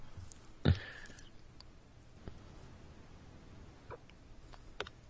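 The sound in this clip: A computer mouse clicks once on a web link, a single sharp, faint click, followed by a few even fainter ticks against quiet background noise.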